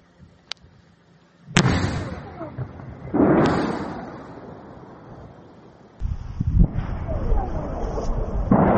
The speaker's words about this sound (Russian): Многие идентифицируют их как работу ПВО. Местные жители в соцсетях опубликовали видео с этими взрывами. Геолоцировать их невозможно, так как там просто слышны разрывы в полной темноте.